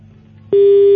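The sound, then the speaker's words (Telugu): A phone tone sounds after a call is cut off. A low hum is followed, about halfway through, by a steady, loud single-pitched electronic tone that holds without change. “Call cut అయినట్టుంది”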